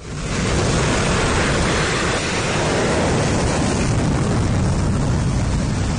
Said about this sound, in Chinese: 海军山东舰披浪前行，飞行甲板上舰载战斗机蓄势待发，伴随着发动机发出嘶吼声